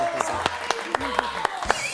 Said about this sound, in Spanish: Un aplauso para ellos, los bailarines.